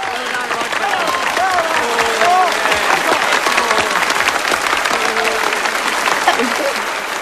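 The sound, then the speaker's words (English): Audience applause after a concert: dense, continuous clapping at a steady loud level from start to finish, with cheering voices mixed into the crowd noise. “Roger Woodward finishes his concert and punches the air. Sitting beside Gillian, David applauds passionately.”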